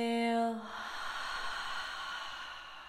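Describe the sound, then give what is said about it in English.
A deep inhaling breath taken during a guided relaxation exercise with a hand resting on the chest. A short voiced tone fades into a long, steady, airy intake that stays soft and even for a couple of seconds. “let's do three refreshing breaths together. Inhaling deeply.”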